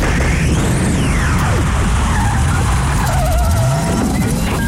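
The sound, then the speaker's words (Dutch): A time machine start-up sound effect: a loud, continuous roar of dense noise with sweeping tones gliding up and down throughout, and no voices. “Dus doe je gordel om, zet je schrap voor de tijdreis van je leven. Want vandaag gaan we terug naar het jaar 2007. Start de tijdmachine.”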